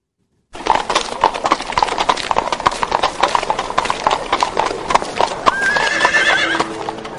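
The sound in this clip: Clip-clop hoofbeats of a horse-drawn carriage: after a moment of silence, a brisk, steady run of hoof strikes plays throughout, and a horse whinnies near the end.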